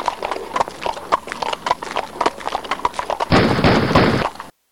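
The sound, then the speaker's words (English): Steady, rhythmic clip-clop of horse hooves pulling a buggy carries on for several seconds. A loud, sustained burst like rapid gunfire then abruptly cuts in over it. “It was, of course, an Amish drive-by shooting.”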